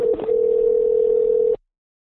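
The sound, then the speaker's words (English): A telephone tone during a call plays as one steady, unbroken beep at a medium pitch, lasting about a second and a half before cutting off abruptly into silence. “Why you always calling me? Sure is ringing a lot.”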